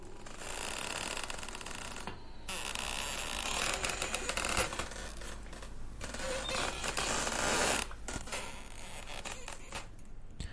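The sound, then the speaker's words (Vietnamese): A wooden coffin creaking and twisting makes a continuous grating, rasping creak with a rough, crackling texture that swells and eases, broken by brief pauses. “Cảm giác cái quan tài gỗ nó bắt đầu vặn vẹo, nghe ken két đến kinh dị.”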